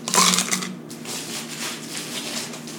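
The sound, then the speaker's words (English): Freshly crushed ice is packed into a glass for a mint julep, opening with a loud, crunchy clatter and settling into a steady, softer grinding rustle as the glass fills. “you put your ice that you just crushed in the glass, fill it all the way up to the top,”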